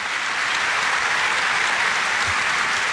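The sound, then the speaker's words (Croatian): Studio audience applause on a morning television show marking its anniversary, heard as a steady, sustained clapping with no pauses across three seconds. “pa dajte pljesak i njima”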